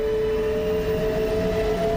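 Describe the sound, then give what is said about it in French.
A train departing, giving a loud, continuous metallic rumble with a sustained whining tone running through it and no voices. “Le convoi s'ébranle dans un puissant grondement métallique.”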